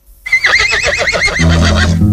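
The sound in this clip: A horse whinnies loudly in one long neigh with a quavering pitch, then settles into a lower, steadier tone.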